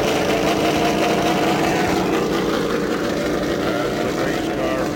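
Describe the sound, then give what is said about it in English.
Race car engines restart at the Indianapolis Motor Speedway with a loud, steady roar, a dense engine drone that holds at an even level throughout. “restart your engines. And with the call to restart your engines, action at the Indianapolis Motor Speedway.”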